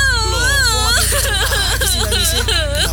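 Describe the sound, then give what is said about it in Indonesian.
Crying and whimpering from a single voice, with continuous wavering, rising and falling wails that stay loud throughout. “Ya udah Beb, nih sabut tangan untuk ngelap air mata kamu. Udah ya, jangan nangis lagi.”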